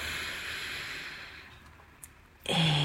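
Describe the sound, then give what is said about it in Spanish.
A long, deep breath in: a steady airy hiss that slowly fades over about a second and a half, then a sustained tone begins. “Inhala largo y profundo.”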